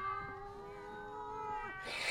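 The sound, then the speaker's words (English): Ornery cats meow in a long, drawn-out, steady-pitched yowl that bends downward near its end, followed by a short burst of noise; faint overall, with no talking. “When did he get all those cats, them ornery folk?”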